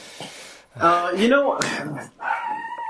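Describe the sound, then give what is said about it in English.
A dog barks insistently during a race commentary, letting out several sharp, yelping barks of varying pitch while a man's voice talks loudly over and around them. “Shut up, you stupid-ass dog! Shut up!”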